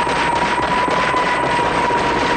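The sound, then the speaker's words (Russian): A helicopter flies off during a film action scene. Its rotor and engine make a dense, even roar with a thin steady whine, holding constant in loudness through the short clip. “Вертолет улетает”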